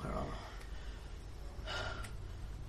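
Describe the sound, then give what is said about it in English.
Hard breathing from a fighter after a tournament sword bout: a few faint, sharp breaths with short pauses between them. “Winner, Field Marshal Cressidia Croft. She breathes hard.”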